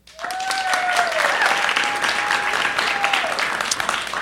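Audience applause cast as a vote in a live game of guessing which story is the lie. The clapping rises quickly and holds steady and loud, with a sustained whistle over it.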